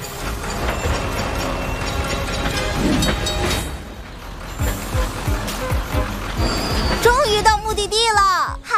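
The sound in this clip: Clattering, ratcheting mechanical sound effect of a cartoon railway track being switched, a busy run of clicks and clanks mixed with other sound and voices, loud throughout.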